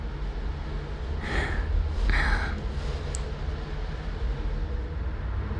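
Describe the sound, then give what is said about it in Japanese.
Deep breaths drawn in through a handkerchief pressed over the nose: two soft, breathy inhalations in quick succession, followed by a brief faint high tone, against a steady low background hum. “鼻に押さえつけたこのハンカチ、よく匂いを嗅いで。そう、深呼吸して。”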